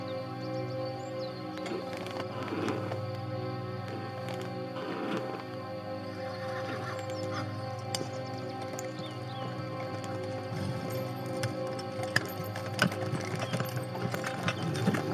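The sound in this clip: Horses pull a wagon with many irregular clip-clop hoof knocks and rattles over a steady background hum, continuing throughout at a moderate level.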